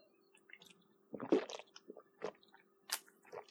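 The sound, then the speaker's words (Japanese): Gulping and swallowing of someone drinking Suntory The Brew beer: a few wet, clicky swallows and gulps in short bursts, moderately loud with quiet gaps between them, no talk. “もう一度ね、サントリーザブリーいただきます。”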